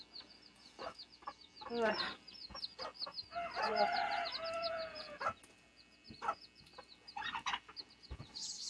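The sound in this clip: Chickens cluck in a series of bursts and a longer drawn-out call, with irregular rhythm and moderate loudness, and no talk over them.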